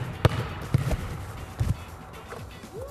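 A basketball bounces on a court during a right pull-up jumper, making a few sharp, hollow thumps spaced irregularly over steady background noise.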